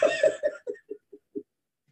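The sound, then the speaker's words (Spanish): A quiet run of about seven short coughs, evenly spaced and gradually fading. “Toso, la verdad.”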